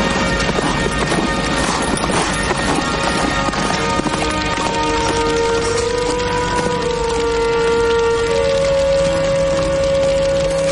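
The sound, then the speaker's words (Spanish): Hoofbeats of a horse galloping away along a road by moonlight, fleeing a spreading house fire; a rapid, steady, fairly loud clatter continues throughout over sustained tonal sounds. “El incendio se propaga rápidamente y que saca el caballo y se aleja de la casa. Se monta en él, que aún sigue nervioso, y se va cargando por un camino bajo la luz de la luna.”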